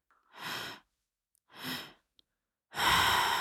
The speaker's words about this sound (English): let's take a couple more breaths and release anything that may be left.